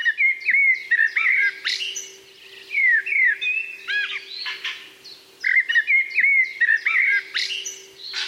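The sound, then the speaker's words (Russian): A mistle thrush sings loud, fluting whistled phrases in repeated bursts with short pauses between them, over a faint, steady low hum. “Послушаем, как поет деряба.”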